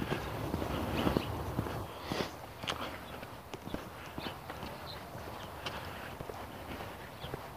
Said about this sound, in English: I'm not walking very fast. My legs are tiring. So I'm getting down to the last quarter mile here.